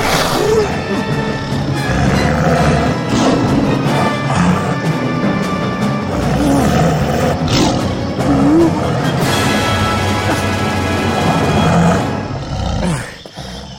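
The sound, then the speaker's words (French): A tiger roars from a branch in a jungle hunting scene. The deep, growling roars are loud and sustained, swelling in bursts, then cut off sharply near the end. “Le seigneur tigre, là, sur cette grosse branche !”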